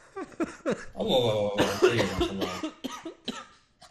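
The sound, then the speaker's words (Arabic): Coughing: a run of harsh, uneven bursts mixed with hoarse, throaty voiced sounds, fading out near the end. “الله طيب مع الكحة دي”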